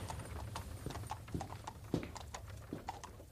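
Hooves clip-clop as a pair of horses draw a coupé carriage, with many uneven, overlapping beats that stay fairly steady in loudness throughout.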